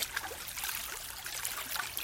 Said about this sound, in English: You are in water. You look around. You're in a lake.